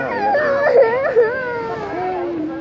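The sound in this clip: A child cries in wavering, whimpering sobs, with high voice bending up and down in pitch and two louder catches partway through.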